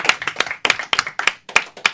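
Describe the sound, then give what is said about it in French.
A few hands clapping for a team's second-place district finish. The claps are sharp and uneven and arrive in loose clusters, with short gaps between the bursts. “On applaudit aussi.”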